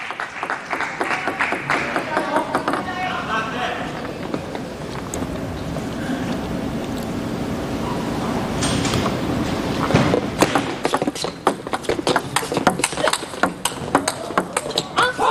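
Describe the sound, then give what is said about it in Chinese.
A table tennis match rally with backhand counterattacks: a fast string of sharp ball ticks over a busy background, growing denser and more insistent toward the end. “这个反手顶得非常漂亮。台湾这边也是打了一个防守反击，在反手位啊，主动寻求的发动。”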